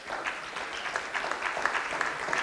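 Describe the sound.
A Baptist audience claps during a Sunday sermon, the hand claps faint and steady, scattered irregularly across the moment.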